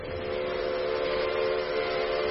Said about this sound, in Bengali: দূরের লাইনে শোনা গেল ট্রেনের হুইসল আর ইঞ্জিন চলার ভারী আওয়াজ।